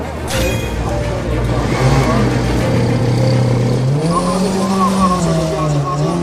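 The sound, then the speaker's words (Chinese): A race car engine with a throttle problem drones steadily and loudly, then rises in pitch near the end as it revs up. “好，29号赛车重新发动。”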